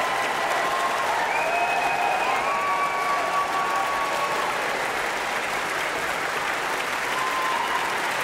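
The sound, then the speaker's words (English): Sustained applause from a concert audience after a solo violin encore of Bach, a dense, even patter of many clapping hands that carries on at a steady level throughout. “You can hear the love coming from this audience.”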